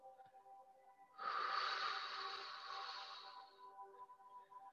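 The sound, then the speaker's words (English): A slow exhale after a held breath during a guided breathing meditation: one long, soft, breathy rush that swells, then gradually eases off over a couple of seconds. It is faint, over a steady low hum. “Hold it as long as you can until I tell you to let it go. Now exhale.”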